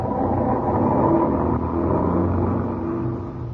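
Car engine rumbling steadily, a dense low drone that stays fairly loud throughout and eases slightly at the very end, with no voices.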